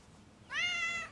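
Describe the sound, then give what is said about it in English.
A cat meows once as it hops onto a bed: a single quiet, tonal meow, steady in pitch and lasting about half a second, with no talk. “Lucinda the cat hops up onto the bed.”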